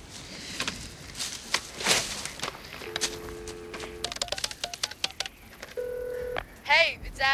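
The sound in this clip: Touch-tone dialing on a phone at a gas station: a few sustained, steady beeps alongside scattered clicks and knocks, with voices talking around them.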